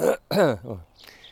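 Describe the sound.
Throat clearing from dust caught in the throat after strimming: a few short, rough, harsh rasps in quick succession, then a fainter breathy catch at the end.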